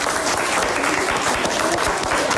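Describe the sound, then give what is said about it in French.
Applause at the end of a quiz round, dense, even clapping from many hands running steadily throughout. “Et voilà la fin de votre questionnaire qui s'applaudit d'ailleurs.”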